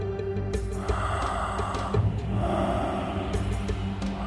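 Slow, deep breaths drawn in and let out during a guided breathing exercise, soft and unhurried over a faint sustained musical drone.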